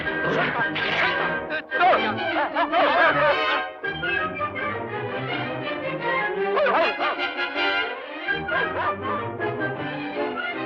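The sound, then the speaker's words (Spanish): Cartoon dogs barking and yipping on a street, in a classic 1955 animated film dub: a dense, fairly loud run of harmonic barks with sliding pitch, going on throughout with only brief pauses. “¡Perro!”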